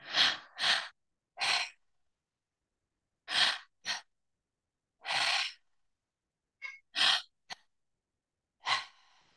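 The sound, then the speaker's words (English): Breathing exercise of inhaling into the belly, then the chest, then exhaling through an open mouth: a series of short, loud, breathy rushes of air separated by silent pauses, with no talking. “The breath goes like this: in through the belly, in through the chest and out through the open mouth. So it sounds like this.”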